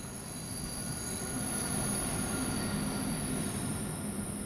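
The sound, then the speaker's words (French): A train rolls past, its wheels squealing on the rails in a steady, high-pitched shriek above a continuous low rumble, with no voices. “Ici, je vous parle pas de pick-up, mais de train. C'est de vrais gros chars.”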